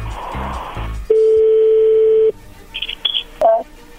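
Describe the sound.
Telephone dial tone while placing a call: a steady, loud, mid-pitched hum lasting about a second, preceded by a stretch of muffled sound and followed by a few short, higher keypad beeps.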